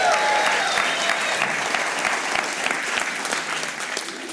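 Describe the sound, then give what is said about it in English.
A church audience applauds and cheers after a call to make noise for Jesus. The clapping is loud and dense, sustained throughout, and eases slightly toward the end. “Can you make some noise for Jesus one more time? Come on.”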